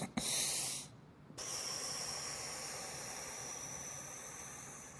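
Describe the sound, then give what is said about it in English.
A breathing exercise: a short, sharp hiss of air drawn in through the nose, then a brief pause and a long, slow, steady exhale that fades gently. “I do this double inhale, long, slow exhale. And I do that 10 times. So it kind of looks like this. In through my nose, like...”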